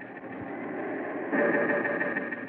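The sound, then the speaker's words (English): Steady mechanical drone of a life-support pump keeping a person alive, a continuous muffled hum that swells slightly louder partway through and holds evenly to the end. “That's the pump that keeps you alive.”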